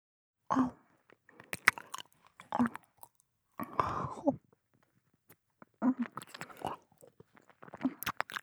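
Chewing on an ear treat: faint, wet crunching bites come in several separate bursts with short quiet pauses between them.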